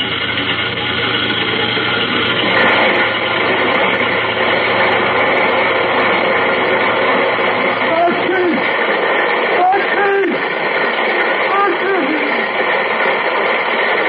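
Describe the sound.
Truck body cranked up to tip coal down a chute: a steady, loud rumble of engine and rushing noise. A deep low hum runs under it and cuts off partway through, while the broad grinding wash continues to the end.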